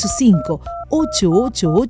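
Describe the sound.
Telephone keypad tones beep as a number is dialed, a series of short, steady electronic pitches, each held briefly, sounding under a voice talking over them.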